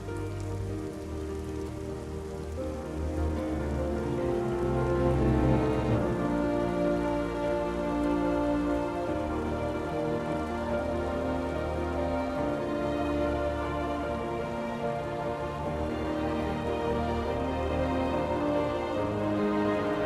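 Heavy rain from a film scene falls in a steady, loud downpour for about twenty seconds, blended with sustained low tonal drones that hold beneath the hiss.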